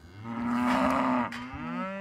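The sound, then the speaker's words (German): Cattle mooing in a herd with a bull near a newborn calf only hours old: one long, steady low moo, then a shorter second call after a brief pause, with no voices. “Die Herde um Bernie kommt Isa immer näher.”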